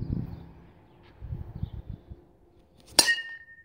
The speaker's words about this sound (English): That was the sound of my dad hitting a wiffle ball with a metal bat.